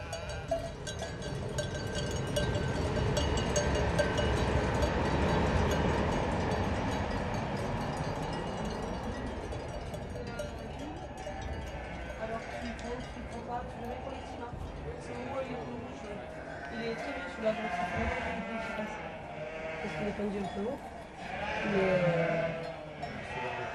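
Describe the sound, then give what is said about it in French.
A mountain flock of sheep wearing sonnailles bells gives continuous clanking and jangling of many bells mixed with scattered bleats, forming a dense, steady wash of sound throughout. “Un bon troupeau ensonnaillé en montagne”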